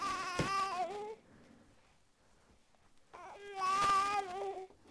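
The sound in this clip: Baby fussing and crying: two loud, wavering wails separated by a quieter stretch of soft whimpering.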